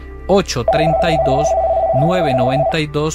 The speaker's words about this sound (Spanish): Tenemos una llamada.